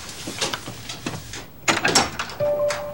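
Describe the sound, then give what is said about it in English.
A bedroom door opens cautiously in a radio drama scene. A few soft clicks and knocks are followed by a brief rattle, fairly quiet overall, with a short faint hum at the end. “Clay opens the door to Frank's room and enters cautiously.”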